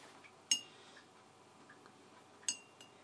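Two light metallic clinks of a cupping spoon during a coffee tasting, spaced about two seconds apart, sharp and faint against quiet background noise.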